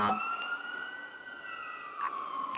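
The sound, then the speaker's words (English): An emergency vehicle siren wails on a New York street: a loud, sustained, high electronic tone that holds steady and drifts slightly in pitch, with no talking. “and that alarm, that siren.”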